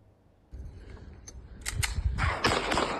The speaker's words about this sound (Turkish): Sokak ortasında silah çekip havaya ateş açtı.